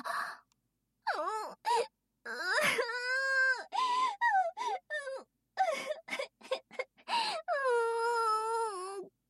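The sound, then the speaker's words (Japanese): A woman's exaggerated fake crying, made of many wailing, sobbing bursts with a wavering, quivering pitch, broken by short gaps and ending in one long, drawn-out wail. “うわ、泣き落とししたのに全然引いたままじゃないですか。”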